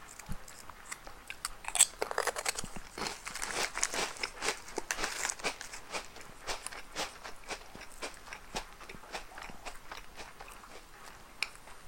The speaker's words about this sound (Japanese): リッツを食べてるのか